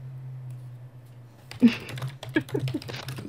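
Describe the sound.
Typing on a computer keyboard into the chat of a Roblox game. After a quiet start with a low steady hum, irregular clicks and clacks of keystrokes follow in quick bursts.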